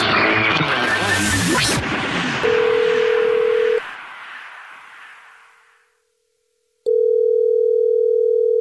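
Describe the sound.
Telephone tones on a call placed back to a listener: a whooshing swell, then a steady line tone that holds about a second, stops, and returns after a short silence.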